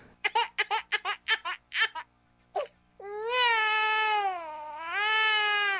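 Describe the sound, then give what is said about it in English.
A crybaby sound effect of a baby crying: after a few seconds of quick talk, a loud, sustained wail rises and falls in two long crying phrases. “Start the crybaby sound effect.”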